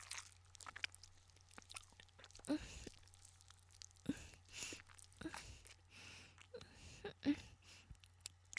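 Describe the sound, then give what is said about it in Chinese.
Biting and chewing on an ice pop: a few crisp, crunchy bites spaced seconds apart, with soft wet mouth sounds between them over a low steady hum. “老公，我在吃冰棍，这里的冰棍还不错。”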